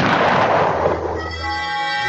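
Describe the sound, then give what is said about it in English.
A gunshot blast: a loud, broad rumbling roar that thins out over about a second while steady musical tones take over underneath. “Slowpoke Rodriguez, he packed a gun. Now he tells me.”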